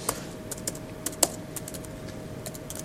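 Keys clatter on a computer keyboard as someone types Python code for a loop, a steady run of many quick, light clicks with a few sharper strikes over a faint constant hum.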